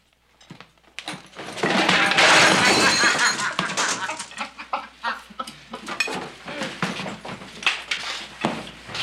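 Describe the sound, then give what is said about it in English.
A waiter in a restaurant film scene is tripped and drops a plate with a steak: a loud crash is followed by scattered clattering and clicking as things settle. “Jimmy Stewart is playing a lawyer who's working as a waiter in this restaurant, and Lee Marvin trips him and makes him spill the steak on his plate.”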